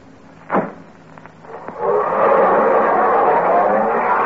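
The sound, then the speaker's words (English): A car driving along a street in Beverly Hills. A dull thump and a couple of faint clicks come first, then a broad engine and road rumble swells in and holds loudly to the end. “It certainly feels good to be driving along here in Beverly Hills with a clear conscience.”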